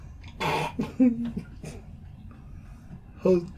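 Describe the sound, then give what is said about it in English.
Gagging and retching from a person struggling not to choke, heard as a few rough, breathy throat bursts with short gaps and noisy breathing between them. “Just gonna keep gagging.”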